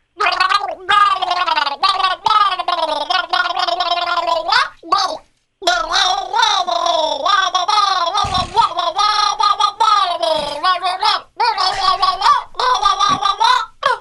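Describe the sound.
Gargling water while humming a tune, a gurgling, pitched warble that runs loud and almost continuously, with two short breaks along the way.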